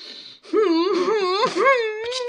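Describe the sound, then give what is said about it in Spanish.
An older woman wails and sobs loudly in a high, wavering voice. The cry breaks off briefly, then rises again into a long, continuous moan that dips and swells in pitch. “No llores, vieja maricona.”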